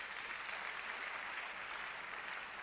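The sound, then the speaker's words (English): A church audience applauding in praise: a steady, dense wash of many hands clapping at an even level throughout, with no single voice standing out. “Put your hands together for the Lord again.”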